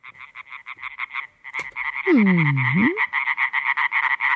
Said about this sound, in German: Laubfrösche sind das. Und der Laubfrosch an und für sich ist ja nicht so wirklich riesengroß. Dafür ist der Kerl aber ganz schön laut.